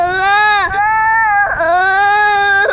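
Young child crying hard: a few long, strained wails at a fairly steady high pitch, broken by brief catches of breath, loud throughout.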